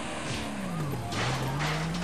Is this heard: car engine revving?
yes